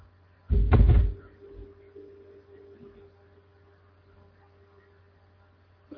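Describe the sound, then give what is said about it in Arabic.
A room door is opened as someone leaves: one loud, thudding burst lasting about half a second, then a low, steady hum with faint rustling. “يبدو أن البعض يفتح الغرفة ويخرج هكذا هناك من فعلها البارحة وإذا هناك من فعلها اليوم”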